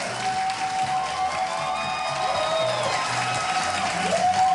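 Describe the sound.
A crowd applauds in a steady, unbroken wash of clapping, with sustained tones running through it at an even, fairly loud level.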